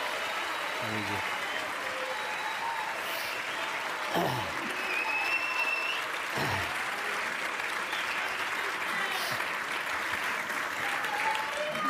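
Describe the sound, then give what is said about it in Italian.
An audience gives a sustained ovation for a guest at an event in Trento, with dense, steady applause from many hands that stays even throughout, plus a few faint whistles and calls. “Bravi, bravi, era l'ovazione giusta, era l'ovazione che ci voleva.”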